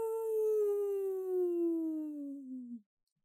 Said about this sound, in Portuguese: Ouviu-se na noite alguém a uivar.